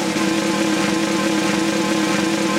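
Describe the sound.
A chainsaw engine sound effect: a loud, buzzing mid-pitched motor drone that holds a constant level throughout, with no revving or cutting bursts.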